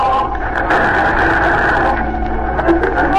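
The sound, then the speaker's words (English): Harsh radio interference from a signal station: loud, continuous buzzing static with warbling, shifting tones that fills the whole clip. No voices are heard. “Here's the interference again. Turn off the radio.”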